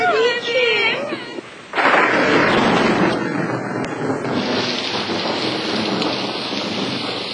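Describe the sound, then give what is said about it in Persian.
A thunderstorm in Paris: after a brief tonal sound at the start, a loud burst of thunder breaks in, then a dense, steady roar of heavy rain continues unbroken to the end. “اما در پاریس خانم ادلا که خواب بود از صدای رعد و برق از خواب پرید”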